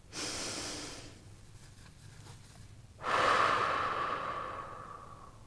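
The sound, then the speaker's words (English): A deep breath, with a short airy inhale, a quiet pause, then a longer exhale that slowly fades. Clear and close, with no talk. “join me in taking a breath”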